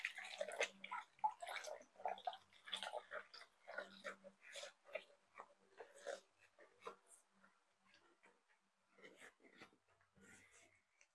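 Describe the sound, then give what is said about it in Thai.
Cloth is washed by hand in water, with irregular soft sloshes, splashes and drips coming in uneven bursts. The sounds are quiet throughout. “เราจะทำการล้างผ้า”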